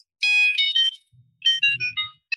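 A phone ringtone played from a handset, a bright electronic melody of quick tonal notes in two phrases separated by a short gap, closing on one brief note.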